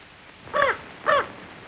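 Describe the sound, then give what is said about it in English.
A raven caws twice inside a bedroom: two harsh, evenly spaced calls, clear and moderately loud against a quiet background. “Suddenly, the raven swoops into the bedroom and lands on his lap.”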